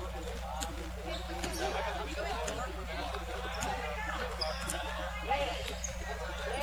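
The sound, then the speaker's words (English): A basketball dribbled on a court while a player runs down the clock, with many soft, irregular bounces under a steady low hum and a murmur of voices. “just dribbling the ball around, trying to kill some of this clock.”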